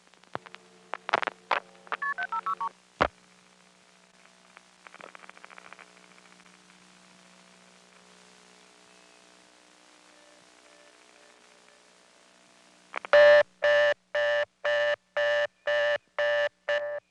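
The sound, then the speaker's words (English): Telephone dialing of 756 on a trunk line, with the sender dropping out partway through the number: a few clicks and short tones at first, a long stretch of low hum, then a quick, regular series of loud tone bursts. “Now I'm going to dial another call to 756 and hang up while it's sending. When I do this, the sender will drop out, leaving me on the trunk with half the number sent.”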